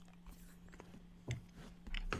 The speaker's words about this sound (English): Oh my god, it's as delicious as ever. You're breaking like one of the cardinal. Don't eat on. Rules. Don't eat on a podcast.